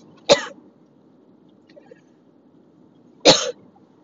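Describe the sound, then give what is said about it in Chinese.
Two sharp coughs from a person choking on their own saliva while driving a car. The coughs are separated by a quiet gap of about three seconds, with a low steady hum underneath. “抱歉，被我自己的口水呛到。”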